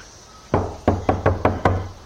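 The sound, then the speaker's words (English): Knocking on a toilet door: one sharp knock, a short pause, then five quick, evenly spaced raps, fairly loud with nothing else around them. “She sighs and knocks on the door.”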